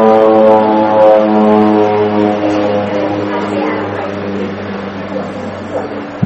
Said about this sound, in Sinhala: දැන් ඔය ප්ලේන් එකක් යනවානේ.